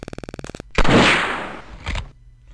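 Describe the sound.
Gunfire in a video game target-shooting round aimed at a 5-gallon water bottle: a rapid train of ticking clicks, then a loud blast with a long decaying tail and a second, shorter burst before it cuts off.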